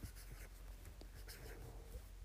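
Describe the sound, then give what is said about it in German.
Faint, soft scratching of a name being written down by hand, a continuous low rustle lasting about two seconds, with no talk. “Also, warte, ich schreibe kurz Piper auf.”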